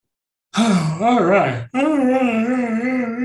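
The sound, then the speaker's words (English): A deliberately wacky, exaggerated yawn voiced in two long drawn-out stretches. The first wobbles up and down in pitch, and the second holds a steadier sustained tone. It is fairly loud and heard alone. “That was a yawn I could not suppress, and I tried to make it wacky so that it didn't feel so much like a yawn.”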